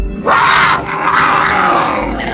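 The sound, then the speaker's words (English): A mountain lion roars with a loud, rough, sustained snarl that carries for about two seconds with little break. “Peeking over the ledge, he sees the lion.”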